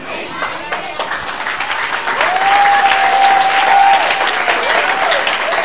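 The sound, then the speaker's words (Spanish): Church audience applauding during a sermon, dense clapping that swells louder after a few seconds, with a held tonal cry rising above it for a short stretch. “Ese es lo fuerte, el aplauso.”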